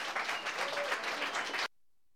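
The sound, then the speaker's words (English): Brief audience applause at an open mic welcomes a singer and her accompanist, a steady patter of clapping that cuts off abruptly into silence. “Please give them a big welcome.”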